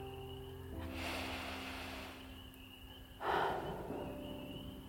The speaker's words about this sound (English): I invite you to join me in taking 3 deep, cool breaths.